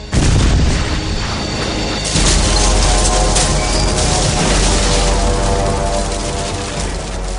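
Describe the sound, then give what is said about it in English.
An explosion of a dozen demolition charges destroying an installation, a loud continuous rumbling roar that surges again partway through and keeps thundering without letup. “A dozen demolition charges have destroyed this installation.”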